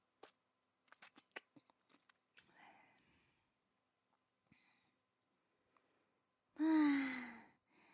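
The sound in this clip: Wet mouth nibbling on an ear in an ASMR setting: a run of short, soft clicks and smacks, a few faint scattered ones after them, then a loud, breathy voiced sigh near the end.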